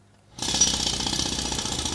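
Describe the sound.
A jackhammer starts abruptly after a brief quiet moment, then hammers on in a continuous, loud, rapid rattle with a bright, harsh edge until the end.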